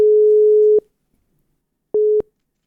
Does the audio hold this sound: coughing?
no